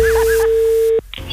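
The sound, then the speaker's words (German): A single steady telephone tone on a radio phone-in holds at one even pitch for about a second, then cuts off abruptly, leaving a low, noisy background. “Das Telefon.”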